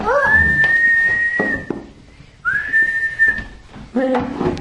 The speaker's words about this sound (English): Oops. I got it. That was me. That was me. Butterflies don't whistle.